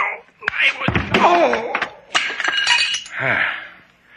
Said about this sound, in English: Why did you hit him over the head with the doll?